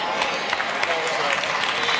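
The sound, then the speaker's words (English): Audience clapping during a sermon: a steady, dense patter of many hands at a moderate level that holds for about two seconds. “See how the claps are getting lower and lower and lower.”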